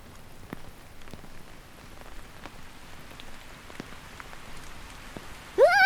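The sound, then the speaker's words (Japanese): Heavy rain falls in a steady, fairly quiet hiss dotted with scattered sharp drop ticks, continuous and without voices. “やばい、雨強くなってきた。いきなり強くなりすぎだ。”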